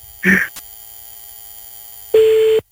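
A telephone line produces a short beep while a call is being placed, then after a near-silent pause with faint hum, a single steady mid-pitched ringing tone that cuts off abruptly.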